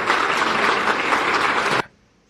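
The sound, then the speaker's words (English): An audience applauds with a dense, steady patter of many hands for nearly two seconds, then the clapping cuts off abruptly and near silence follows. “yeah, worthy of applause because she is teaching us a lesson of history.”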